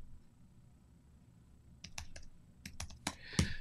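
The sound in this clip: Sharp clicks of keyboard typing, a few scattered keystrokes that begin after a quiet stretch and come in an uneven rhythm over a low steady hum, with no voices.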